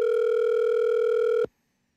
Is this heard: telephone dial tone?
yes

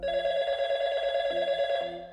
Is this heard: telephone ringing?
yes

